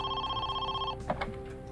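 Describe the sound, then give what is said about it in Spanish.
A telephone rings with a steady electronic trill that cuts off abruptly partway through. A couple of faint clicks follow the ring. “Justo antes de la 1 de la tarde, el teléfono volvió a sonar.”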